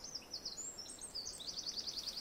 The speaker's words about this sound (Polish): Jakie ładne kwilenie, świergot taki.